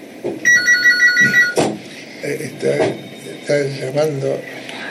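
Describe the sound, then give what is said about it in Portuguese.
A telephone rings with a rapid electronic trill, a single burst of quick repeated pulses, and people talk right after it. “Temos uma ligação agora.”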